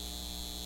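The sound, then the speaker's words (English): A data center gives off a steady, faint electrical hum with a buzzing edge, constant and unchanging for under a second. “This is the sound of a data center taking your water and driving up your utility bills.”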